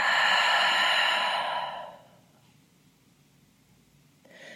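A deep breath exhaled slowly during a guided relaxation exercise, a soft, breathy hiss lasting about two seconds that fades into quiet, with a faint new breath starting at the very end.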